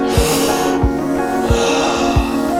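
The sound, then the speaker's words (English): Sharp nasal inhales during a breathing exercise: four short, forceful sniffs spaced evenly about every two-thirds of a second over a steady background hiss. “The last 10 inhales together.”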